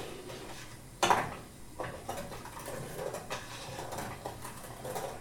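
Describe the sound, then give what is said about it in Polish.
A spoon scrapes and clinks against a pot as a sugar mixture is stirred continuously over a small burner. The scrapes are faint and irregular, with one sharper knock near the start. “Musimy mieszać przez cały czas, ponieważ łatwo mogłoby się nam przypalić”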